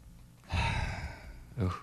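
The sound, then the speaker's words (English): A big breath taken with a microphone pressed against the chest, as in a doctor-style check for a wheeze: one long, muffled rush of air lasting about a second, then a shorter, fainter puff of breath right after. “put the microphone up to your chest and take a really big breath”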